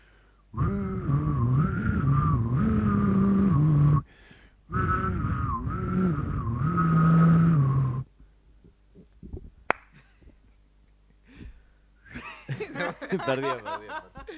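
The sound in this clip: Whistling in a whistling competition: a sustained, melodic whistled tune in two long phrases with a short break between them, loud and steady. It is followed by a quiet stretch and then brief chuckling voices.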